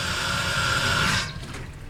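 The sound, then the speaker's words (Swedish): Water rushes strongly from a garden hose being tested for flow and force, a loud steady hissing gush that weakens and thins toward the end. “Och det var just det som jag ville testa, hur bra flöde det är och hur mycket kraft det finns i den här slangen.”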